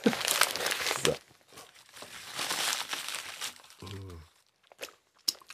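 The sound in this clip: A day-old newspaper rustles and crinkles as its pages are handled: bursts of papery crackle and crunching, broken by short pauses, with a brief murmured hum from a voice midway.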